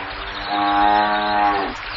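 An old cow gives one long, low, droning moo that swells in the middle and drops off at the end, alone with no talk.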